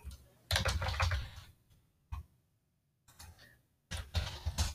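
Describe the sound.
Faint typing on a computer keyboard, with a few quick runs of key clicks broken by short pauses and one brief tap between them.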